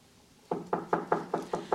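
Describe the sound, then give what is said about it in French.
Knocking on a door: seven even, moderately soft knocks in a steady rhythm follow a short quiet stretch, each one a dull, woody thud. “Qui frappe ainsi?”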